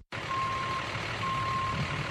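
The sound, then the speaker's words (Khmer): Backup beeps from a container truck reversing on a quiet street in the Bronx, New York, during driver practice: two long, steady high-pitched beeps, evenly spaced, sounding over a continuous low engine rumble. “កំពុងហាត់ថយរថយន្តដឹកកុងតឺន័រនៅផ្លូវស្ងាត់មួយនៅសង្កាត់ Bronx នៃទីក្រុងញូវយ៉ក”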